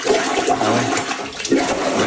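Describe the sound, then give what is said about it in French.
Gurgling water backs up into a toilet bowl during heavy rain, a loud, steady rush of churning, bubbling noise that runs the whole time with no pauses. “Grosse pluie, là, ça déborde. Les gens filment leur bol. Écoutez bien le son, c'est impressionnant. C'est le retour d'eau.”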